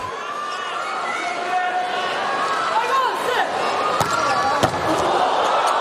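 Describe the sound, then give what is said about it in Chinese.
Volleyball serve in a USA versus Japan match: two sharp ball impacts ring out over steady crowd noise while commentators talk. “好发球，发球又拿到一分”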